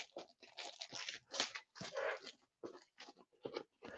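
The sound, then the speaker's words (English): A small knife cuts open a plastic-wrapped package, producing quiet crinkling and tearing of plastic in a series of irregular, crunchy bursts separated by short pauses. “All right, let me use my little knife here. Not cut myself. Move the plastic wrap.”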